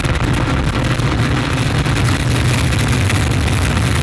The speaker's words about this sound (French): Top, allumage Vulcain. Allumage confirmé. Top, allumage EAP, décollage.